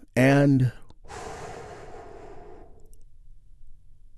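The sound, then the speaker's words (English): A guided meditation group takes a big, deep healing breath together: a short voiced tone, then a long, breathy, sigh-like exhale that slowly fades away. “And we begin our moment of Zen with a big, deep healing breath that we do all together. Here we go.”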